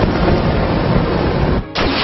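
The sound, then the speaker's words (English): Fire breath attack in a turn-based monster-battle video game: a loud, dense, roaring rush of noise held steady, broken by a brief gap near the end before it surges back. “Choose a move. Fire breath.”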